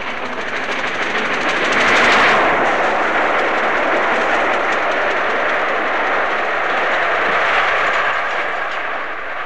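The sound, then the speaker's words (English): A steam locomotive runs at speed with its back left-hand steam chest cover coming adrift, making a loud, dense rushing roar threaded with rapid rhythmic beating that swells early on and then holds steady. “What in fact was happening was that the back left-hand steam chest cover was coming adrift, and here, passing Goring, the sound is perhaps even more pronounced.”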